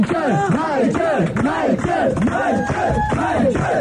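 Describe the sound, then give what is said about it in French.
Fans give a singer an ovation, a loud crowd chanting and shouting in a steady, repeated rhythm, many voices rising and falling together in rousing cries throughout. “il y a toujours l'ovation, bien sûr, de ses fans qui sont venus nombreux de la France entière”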